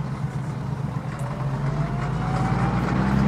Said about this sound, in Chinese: 经过刚才的惊险啊，接下来小嫂子也放开了，油门到底，狠命的追了上去。